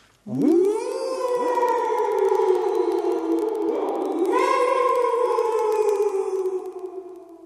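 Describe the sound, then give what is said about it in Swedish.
Children howling together at once, imitating a dog: a long, loud chorus of wavering howls that swoops up at the start, holds steady, swells again midway and slowly fades away. “Och så ylar ni tillsammans på en gång.”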